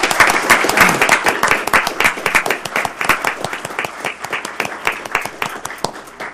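Applause from an audience after the proclamation of June 2014 as Pride Month in Portland, Oregon: dense, loud clapping from many hands that thins slightly into more distinct individual claps toward the end.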